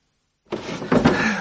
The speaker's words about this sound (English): Another damn drawer and no gloves.